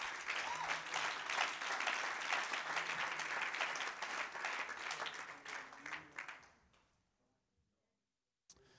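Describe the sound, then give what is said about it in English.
An audience claps hands during a church worship service: dense, loud, sustained clapping for about six seconds that then dies away to near silence. “Oh, would you clap your hands to the Lord?”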